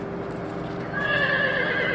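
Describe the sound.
A horse whinnies, one of the wild horses from a prison training program in Arizona. Steady background noise comes first, then a loud, drawn-out, high, harmonic neigh begins partway through and carries on to the end.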